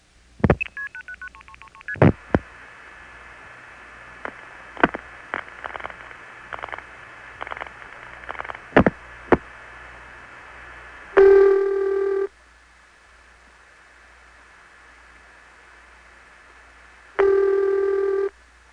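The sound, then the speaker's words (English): A 1974 long-distance telephone call from a Long Island home to Coleridge, North Carolina: many scattered switching clicks, then two steady ringing bursts about six seconds apart with quiet between them. “Here's a call to Coleridge from my Long Island home, made in 1974. The dialing portion of the call is not included here.”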